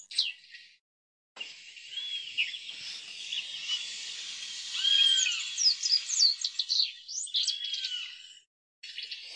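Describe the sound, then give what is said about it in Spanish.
Shiny cowbird song, a faint stream of high, thin whistled notes and chirps, some sliding up or down, running almost continuously with brief pauses at the start and end. “El tordo renegrido no construye su propio nido ni incuba sus huevos. Los pone en el nido de otras aves”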